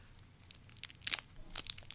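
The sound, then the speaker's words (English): Crinkling and tearing as the packaging of a mini toffee candy bar is opened, a few quiet, sharp bursts of plastic rustle that grow denser toward the end, with no talking. “I'm going to open the package now.”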